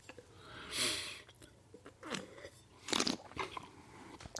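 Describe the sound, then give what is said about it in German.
Wet lip smacks and mouth noises while tasting wine, in a few faint, separate bursts with quiet pauses between them. “Ich habe lange nicht so viel geschmatzt, habe ich das Gefühl.”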